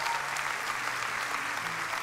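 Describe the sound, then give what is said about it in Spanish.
A church audience applauds with dense, continuous clapping that stays steady and fairly even in loudness from start to finish, with no voices standing out. “Vamos, si va a aplaudir, hágalo con ganas, iglesia.”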